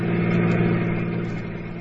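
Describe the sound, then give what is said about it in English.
A car engine hums steadily as the car drives off, a mid-pitched drone over a low rumble that holds even and then eases slightly quieter toward the end. “We got into his car and drove off to the insurance office.”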